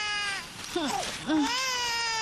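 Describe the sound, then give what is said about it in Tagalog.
A baby cries, probably hungry, in a few sustained wailing cries with wavering pitch, fairly loud and with no other sounds. “Naku, umiiyak na yung bunso ko. Gutom na yata yung baby bunso ko.”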